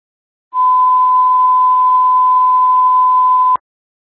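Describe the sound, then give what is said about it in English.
A dispatch radio alert tone sounds as a single steady, high beep at constant pitch, lasting about three seconds, alone with silence before and after. “Stand 4, stand by for alert tone 1.”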